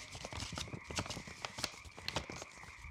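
Galloping clip-clop sounds accompany a cardboard boar toy ridden by an orc figure: quick, uneven knocks in a fast galloping rhythm, fairly faint.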